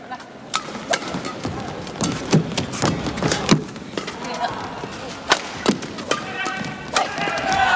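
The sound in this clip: Sharp table tennis ball hits ring out in a serve and return during a match, a quick series of crisp taps at uneven spacing under steady commentary.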